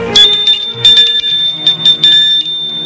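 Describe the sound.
A doorbell rings at a house in a few loud, bright bursts of high metallic tones with no voices.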